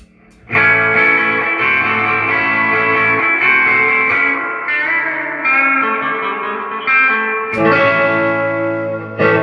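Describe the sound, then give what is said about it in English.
An electric guitar played through a Deluxe Reverb amplifier rings out in full, sustained chords. The tone is rich and slightly driven, each chord left to hang, with a fresh strum near the end. “Now let's hear the deluxe reverb.”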